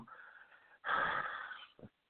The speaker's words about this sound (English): you hear me breathe